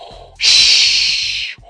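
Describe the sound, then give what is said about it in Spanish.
A deep, fearsome breath from a villain inside a machine suit comes as one long, loud mechanical hiss. It starts abruptly, holds for over a second, then cuts off, with faint low pulsing beneath. “esa respiración tan profunda, tan temible, que nos hace notar que no es un androide, no es un robot, es alguien que está dentro de una máquina y que respira así”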